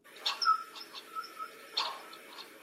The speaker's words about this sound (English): So I started with these bird sounds that I found on Splice.